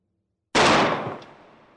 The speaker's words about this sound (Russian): В пустом туннеле, где даже хлопок в ладоши звучал как удар гонга, выстрел из крупнокалиберного оружия был подобен взрыву.